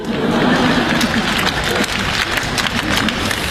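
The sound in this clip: Audience applause at a live comedy performance: dense, steady clapping from a crowd, sustained at an even level for the whole stretch.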